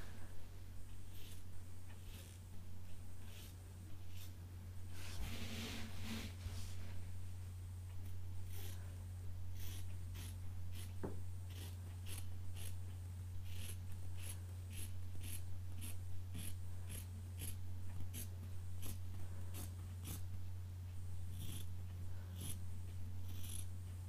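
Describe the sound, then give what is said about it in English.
Cutting a panel of fabric produces many short, crisp strokes in a fairly regular rhythm over a steady low hum, with a brief louder rustle early on. “So now I finished cutting my panel of fabric.”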